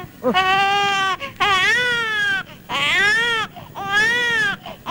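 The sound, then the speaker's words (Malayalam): Children crying at night: four drawn-out wailing cries in a row, each with a wavering, bleating pitch, loud and with no talking. “കുട്ടിയോളെ കരച്ചില് രാത്രിയിൽ കേട്ട തീരെ ഉറക്കം വരില്ല, അതുകൊണ്ടാ അടച്ചോ.”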